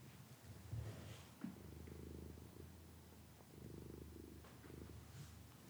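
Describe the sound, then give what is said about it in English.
A cat purrs steadily while nuzzled against a noise shield, a soft, low, rhythmic rumble that continues evenly throughout, faint and alone with no voices. “He's purring pretty hard. He seems happy.”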